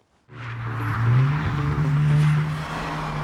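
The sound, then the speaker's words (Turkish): A car engine revs loudly while the car stands still, its deep roar starting abruptly. The revs climb and ease off twice in a low, throaty drone, with no voices. “Bu arabadan harika bir ses çıkıyor. Durdurabilirsin.”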